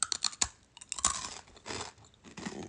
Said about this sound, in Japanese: ちょっとこのぐちょぐちょの指でおかき食べます